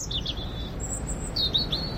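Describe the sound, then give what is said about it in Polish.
Small birds chirp in spring with high, thin tweets in two brief bursts of a few quick calls each, above a steady low rumble. “Ptaszki ćwierkają, że idzie wiosna, ale czy to już?”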